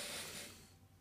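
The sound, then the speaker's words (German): A pen writes on a Post-it note in one brief scratchy stroke that is strongest at first and then fades. The sound is quiet, with no talk. “Ich schreibe jetzt hier auf die Seite einen Käse auf und wenn du diesen Käse nennst, ich schreibe es ja auf den Post-it”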